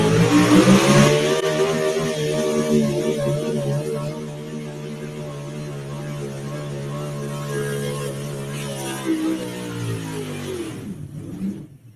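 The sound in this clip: A big brown Ford drag racing car roars as its engine revs hard at launch on a drag strip. The loud, sustained, rumbling engine holds steady for several seconds, then drops away abruptly at the end.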